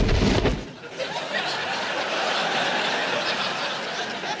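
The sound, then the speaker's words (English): Gunshot as Spanish marksmen shoot a spy: one sharp, loud blast at the start that decays within about half a second into a lingering noisy tail. “The Spanish marksmen have shot their own spy. We must return their fire.”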